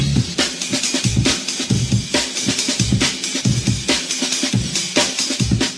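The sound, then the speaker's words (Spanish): A drum loop sample from a song, the original of a widely reused break, plays about six seconds of busy, driving kick, snare and cymbal hits in a tight, repeating groove. “Hay un loop de batería que has escuchado cientos, quizá miles de veces, pero que fue original de este tema. El trocito que te pongo de nuevo dura 6 segundos.”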